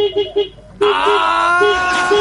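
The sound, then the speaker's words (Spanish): A vehicle horn sounds a few short, low beeps, then breaks into a loud, sustained, multi-toned blare that runs to the end while the lower beeping tone keeps pulsing underneath. “Y aquí está mi bocina, amigo.”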